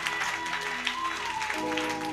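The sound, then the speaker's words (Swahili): A church audience clapping in applause, a fairly faint, steady patter of many hands beneath sustained tonal sounds. “Then piga makofi vizuri.”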